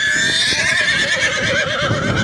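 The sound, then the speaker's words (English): A mare whinnies: a loud, sustained neigh lasting about two seconds, with a quavering, wavering high pitch throughout. “Marie the mare whinnied”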